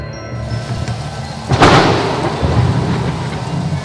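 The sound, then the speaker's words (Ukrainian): A thunderstorm: steady rain hisses throughout, then a sharp thunderclap bursts in and trails off into a long, rolling rumble beneath the continuing rain. “здійнялася страшна буря. Вдарила блискавка і звергла з високої гори ідолів Армаза, Гаці і Гаїма.”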